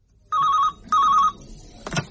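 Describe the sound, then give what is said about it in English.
A telephone rings while someone places a call, giving two evenly spaced warbling rings with a short gap between them, followed by a brief click. “so I think I'll give the writer a ring for some further info.”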